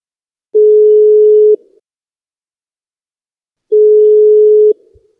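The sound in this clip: Telephone ringing tone on a call about a flat for sale: two long, steady, mid-pitched tones, each about a second, separated by a few seconds of silence, with no voices.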